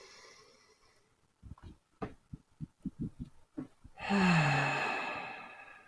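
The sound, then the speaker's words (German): A deep breath in, taken during a guided relaxation exercise: a long, soft, breathy rush lasting close to two seconds that slowly fades, heard alone. “Und noch einmal tief einatmen.”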